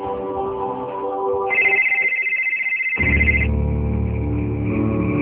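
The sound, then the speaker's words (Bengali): A telephone rings for an incoming call, giving a bright, pulsing electronic ring tone that lasts about two seconds over a continuous background sound, then stops. “বিয়ে করার পরপরই আলেকে phone করে খবরটা জানিয়েছিল Rommel.”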